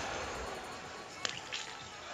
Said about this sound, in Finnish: Mäkäräinen ampuu paikassa 28. ohi. Ensimmäinen ohi.